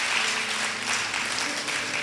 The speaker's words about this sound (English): Come on, can we give a mighty hand clap to those people?